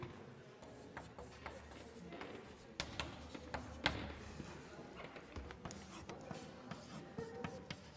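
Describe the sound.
Mathematical notation being written on a board during a lecture: faint, scratchy strokes and light taps that recur throughout, irregular and soft, with no voices.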